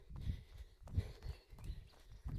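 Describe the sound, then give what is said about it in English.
Footsteps of several people running in a group, a quick, steady rhythm of soft, low thuds with a little breathy noise between them. “Let's keep running. Oh, well done, everyone”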